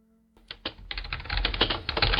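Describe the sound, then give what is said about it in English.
Rapid typing on a computer keyboard at work: after a brief near-silent moment, a dense, steady stream of many crisp clacking keystrokes runs on alone, with no talk. “The clickety clack of the keyboard while you listen at work. Annoying, isn't it?”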